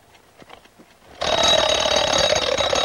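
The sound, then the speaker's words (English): A mechanical alarm clock gives a few soft clicks as the knob on its back is turned. Then a loud, continuous bell ring bursts in and lasts to the end. “picks up the alarm clock and turns a knob on the back”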